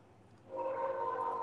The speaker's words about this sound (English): Oh, lovely. There's a train coming.